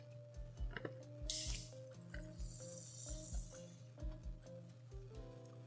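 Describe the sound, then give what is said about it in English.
A can of Guinness beer being opened: a short, sharp hiss, then a longer, fizzing hiss. Both are quiet, over a steady, rhythmic low thumping. “Can you hear that? That's the sound of a Guinness opening, people.”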